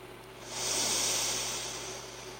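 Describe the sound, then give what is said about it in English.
A full exhale of breath during a guided breathing exercise, a soft airy hiss that swells to a peak and then slowly tapers away, quiet and alone without speech. “All the way out. Full exhale.”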